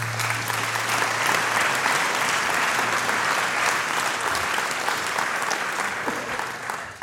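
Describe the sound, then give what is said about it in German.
Audience applause fills the whole clip at a celebration, a dense, steady wash of many hands clapping at even loudness that eases slightly at the very end. “Respekt jetzt schon mal. Ja, das schon mal ein Applaus.”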